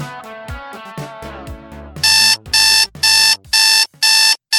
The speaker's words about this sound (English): Do you know what that sound is? That's your wake-up call.